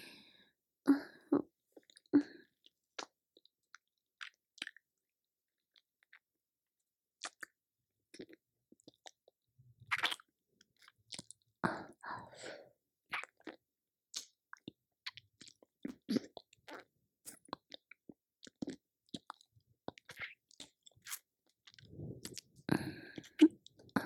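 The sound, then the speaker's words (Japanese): Quiet, wet licking and mouth sounds on the upper body in an intimate roleplay. Many soft smacks and clicks come in irregular clusters with silent gaps between them. “まずは、上半身を舐めさせていただきますね。”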